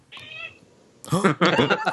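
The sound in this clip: A cat gives one short, high meow, followed after a brief pause by people talking.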